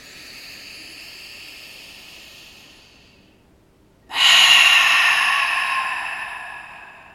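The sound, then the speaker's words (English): A slow, deep breath is drawn in through the nose as a soft, quiet hiss, followed by a brief pause and then a much louder, breathy exhale through the mouth that gradually fades out. “Take a deep breath in through your nose. Exhale through your mouth. Just a grounding breath. Let's do two more.”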